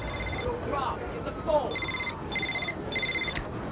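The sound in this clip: A telephone rings: a few short, repeated bursts of electronic trilling arrive in the second half over a dense bed of other sound.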